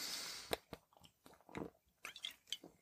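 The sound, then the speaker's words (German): Soft mouth sounds of someone taking a sip of Tegernsee beer: a quiet, irregular series of wet clicks and small gulps in several short bursts. “Und ich muss jetzt mal nochmal einen Schluck von meinem Tegernsee trinken.”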